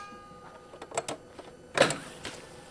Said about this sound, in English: Matt Marinelli is lovingly threading a tape over the delicate heads of his two-decade-old Ampex 1200 reel-to-reel deck.